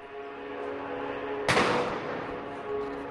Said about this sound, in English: The police have started throwing grenades. The riot police here at the Independence Square, where the opposition march was meant to take place. Everybody scattered.